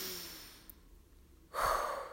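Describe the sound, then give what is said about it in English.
A deep collective breath: a soft, airy hiss that slowly fades, then a louder, rougher rush of air toward the end. “let's just take a collective deep breath”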